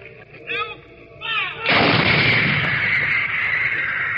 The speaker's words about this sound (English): this howitzer pounds round after round into the advancing human